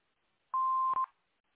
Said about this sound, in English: phone number after the beep.